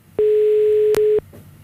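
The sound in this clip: A single steady telephone ringback tone on an outgoing call that goes unanswered, about one second long, loud and even in pitch, with a brief click midway through.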